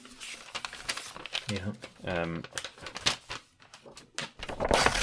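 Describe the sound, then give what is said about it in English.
Paper ad script being ripped up and crumpled, with crackling, tearing noises in irregular bursts, mixed with people talking over it. “You ripping up the ad read?”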